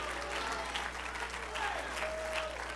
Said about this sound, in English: If you're glad for salvation today and you're glad that God came down to see about us, go ahead, clap your hands, lift your voice, magnify him.